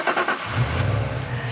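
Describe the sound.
A voice imitating a 2010 Citroën C4 starting up: a short burst of engine-like rumble settling into a steady buzzing drone, all within under two seconds.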